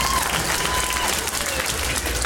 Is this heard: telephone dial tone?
no